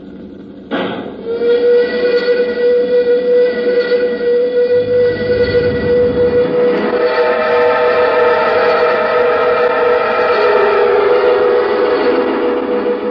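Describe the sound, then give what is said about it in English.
Spaceship astral drive sound effect from a radio drama: after a brief quiet moment it starts abruptly into a loud, sustained droning whine of layered steady tones that holds unbroken to the end. “Stand by to cut astral drive. Okay, cut it.”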